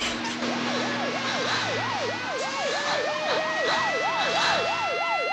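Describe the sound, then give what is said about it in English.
Police car siren as the car speeds round a corner, a fast rising-and-falling wail that repeats in quick, even cycles at a steady level throughout. “A police car speeds round the corner just after the trucks have disappeared.”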